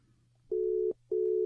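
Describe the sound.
Telephone tone after a dropped phone call: two long, steady mid-pitched beeps separated by a short gap, with a faint low hum underneath.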